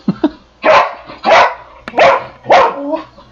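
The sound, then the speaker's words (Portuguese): A dog gives four loud, evenly spaced barks, each short and punchy, after two brief faint yips at the start. No one talks over it. “O cachorro tá insano. Você tinha que ver essa cena. O cachorro tá insano aqui.”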